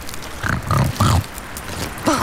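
A wild boar gives a few short, low, throaty grunts, separated by brief pauses, the last one carrying a slightly higher-pitched edge.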